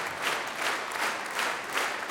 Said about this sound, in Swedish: Och ni hör på applåderna.